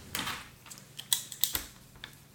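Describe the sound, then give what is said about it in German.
Light tapping and clicking as something is written onto a list, like keys being pressed. The clicks come faint and irregular, with a few sharper ones in the middle, and no one speaks. “Warte, ich muss was auf meine Liste schreiben.”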